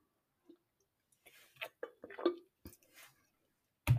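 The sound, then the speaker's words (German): Someone taking a sip of a drink: faint wet clicks, small slurping squishes and swallowing sounds in a scattered series, with a louder knock at the end. “Ich muss kurz mal etwas trinken.”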